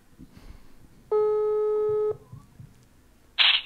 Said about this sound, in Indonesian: telepon dulu kita mau coba telepon